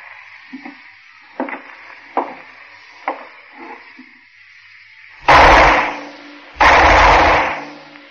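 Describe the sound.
Two loud gunshots ring out, each a heavy, sustained blast. A few faint taps and clicks come before them against a quiet hiss.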